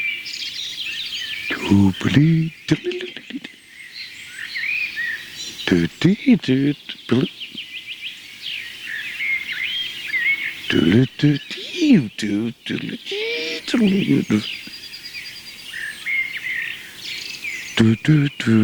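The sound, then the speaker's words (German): Common blackbird singing varied, melodious phrases separated by short pauses, each phrase different from the last, while a person talks between and over the song. “Auf jeden Fall schön hören, warum die Amsel in die Gruppe der Melodica gehört.”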